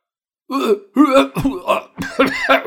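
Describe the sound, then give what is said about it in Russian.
A voice imitates a startled man's coughing with a run of throaty, voiced, hacking bursts in uneven rhythm, separated by short gaps. “Закашлялся Колобков, расширяя глаза до размеров блюдечек.”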